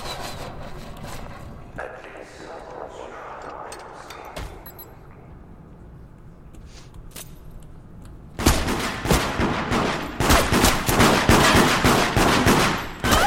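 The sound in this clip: Gunfire in a video game: a quieter, scuffling stretch gives way to dense, loud bursts of rapid shots in the second half.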